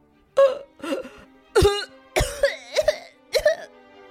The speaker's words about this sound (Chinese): 戳下吸管，直接大口大口要喝的那刻，不好了，珍珠卡住珍奶公主的喉咙了。